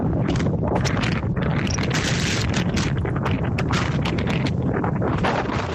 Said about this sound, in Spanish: Así sonaba esta mañana el viento en la costa.